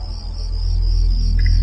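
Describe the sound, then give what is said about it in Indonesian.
Crickets chirping at night around a quiet campus around 3 a.m. in cold air, a thin, steady, high-pitched trill that runs without a break over a loud, deep rumble. “Suara jangkrik sangat terdengar nyaring sekali.”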